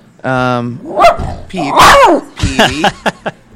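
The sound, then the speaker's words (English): A protective dog barks in a loud, uneven series of sharp barks and yips, opening with a higher, drawn-out whining yelp before the shorter barks follow. “He's very protective, which will be great once we have the baby because he'll bark at anyone who comes near him, I'm sure.”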